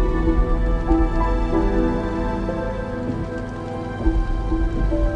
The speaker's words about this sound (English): As Rose drives, raindrops begin to fall on her windshield, and she turns on the wipers